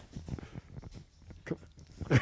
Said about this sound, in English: What you're hearing now is our dog getting hit in the face with the microphone.